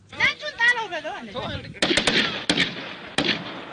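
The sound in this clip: Gunfire from graphic video footage from Tigray, Ethiopia: a voice speaks first, then several sharp, loud shots crack out at irregular intervals over rough background noise.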